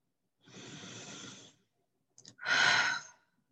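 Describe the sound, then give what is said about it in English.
A deep breath taken alone: a long, soft, airy inhale, then a pause, then a louder, breathy exhale that trails off like a sigh. “I just wanted to take a moment to just take a deep breath there.”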